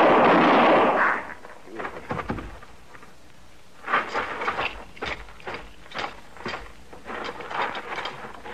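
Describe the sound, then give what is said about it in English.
A rifle shot in a barn bursts out loud at the start, a broad blast that fades over about a second, followed by a run of softer scuffs and knocks. “Did he shoot you?”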